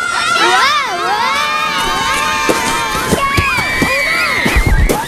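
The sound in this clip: Children shout, shriek and cheer as their sleds rocket down a steep snowy hill at Pioneer Park on a cold November day. Excited high-pitched yells rise and fall continuously, with a few low thumps near the end.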